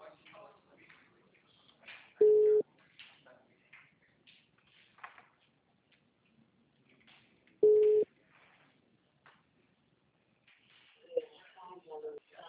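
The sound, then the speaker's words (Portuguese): A telephone busy tone after a dropped phone call gives two short, steady mid-pitched beeps several seconds apart, with voices talking quietly around them. “Caiu a ligação?”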